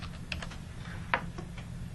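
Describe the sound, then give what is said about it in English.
Clicks of typing on a computer keyboard: a few soft, irregular keystrokes, one of them sharper and louder, with no voices. “We can enter it by clicking on the keyboard.”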